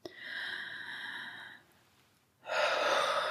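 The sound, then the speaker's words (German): Two long, airy deep breaths drawn down into the belly, each a steady hiss of moving air lasting over a second, separated by a short quiet pause. “Und dann nehmen einfach mal zwei, drei tiefe Atemzüge wirklich tief in den Bauchraum hinein.”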